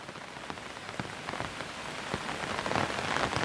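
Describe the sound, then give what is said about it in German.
Rain pattering on an umbrella overhead: a dense, steady hiss of drops with scattered sharper taps, growing slightly louder toward the end, with no voices. “fühlst das leichte Gewicht des Schirms, hörst das tröstliche Prasseln über dir.”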